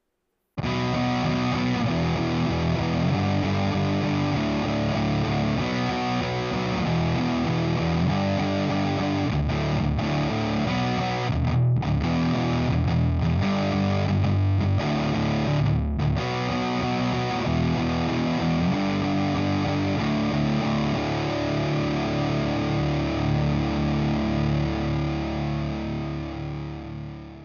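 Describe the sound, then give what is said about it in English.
Distorted electric guitar through a Sunn Beta Lead amplifier with no external pedals, playing a high-gain metal tone. Thick sustained chords ring loud and continuous for the whole clip, with a few brief breaks in the middle. “It's probably one of the most gain-heavy Sunn circuits out there, letting you approach an extremely usable metal tone without even needing any external pedals.”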